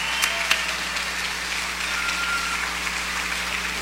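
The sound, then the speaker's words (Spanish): Applause for a doctor and his team: a dense, even patter of clapping that holds steady throughout, with a few sharper claps standing out early on and no voices. “Un fuerte aplauso para él y para todo su equipo”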